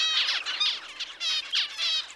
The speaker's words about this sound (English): After chicks inside the egg have heard a parent making these heat calls, it has a profound effect on them, down to the cellular level.